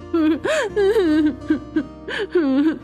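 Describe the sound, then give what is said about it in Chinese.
A voice acts out a frightened child crying, producing quivering, whimpering wails that rise and fall in short bursts with small breaks between them. “贝利害怕的不由自主的哭了起来。”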